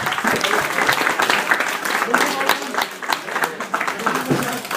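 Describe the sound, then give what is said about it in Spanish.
An audience applauds during a comic-book talk and quiz, giving dense, steady clapping that holds loud throughout, with voices mixed in. “Un aplauso.”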